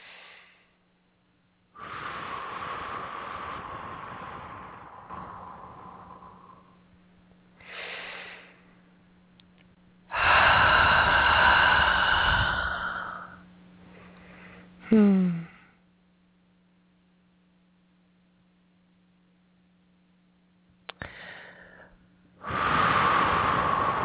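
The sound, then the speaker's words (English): Deep breathing, drawn in through the nose and let out through the mouth, comes as a few slow, long airy rushes with quiet pauses between them and a faint steady hum underneath. “let's take a nice deep breath, please. I recommend in through the nose, out through the mouth.”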